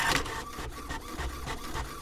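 A printer runs with a steady mechanical whir, pulsing in a quick, regular rhythm of soft thuds and a high, thin whine throughout.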